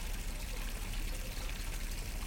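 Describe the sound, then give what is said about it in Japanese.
Hot water is poured over a person's waist and belly during a bath, a continuous soft splashing trickle at an even level with no pauses. “腰からお腹に、お湯加減は問題ございませんでしょうか。”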